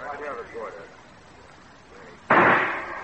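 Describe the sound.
A single gunshot is fired at a target during a shooting match. A sharp, loud crack with a short decaying tail comes after a moment of faint voice.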